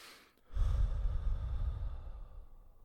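A deep breath is let out as the final breath of a breathing exercise: one long, airy exhale that starts abruptly and slowly fades away.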